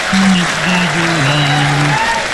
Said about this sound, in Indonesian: Okey, kita tepuk tangan. Bagi tepuk tangan. Bagi semangat sikit.